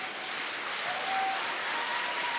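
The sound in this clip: Crowd applause at a ski jumping competition after a jumper lands beyond 200 meters with a telemark: a dense, steady roar of clapping that holds at an even level throughout.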